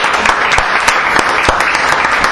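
Applause from a church audience, a dense continuous clatter of many hands clapping at steady loudness, with a few sharper individual claps standing out.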